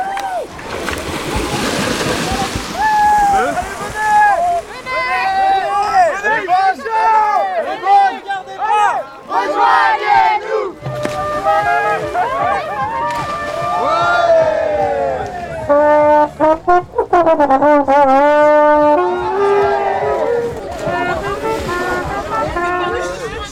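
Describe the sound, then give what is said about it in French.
About thirty bathers splashing in water, a busy wash of splashes under many overlapping lively voices and cries that stay loud and dense throughout. “Il y a maintenant une trentaine de baigneurs et de baigneuses dans l'eau.”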